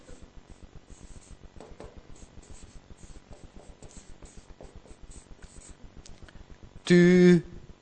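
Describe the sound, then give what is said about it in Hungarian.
A pen writes capital letters by hand with many regular, evenly spaced scratching strokes, then a short, loud tonal burst ends the sequence. “Csupa nagybetűkkel írom, mert iszonytatóan fontos.”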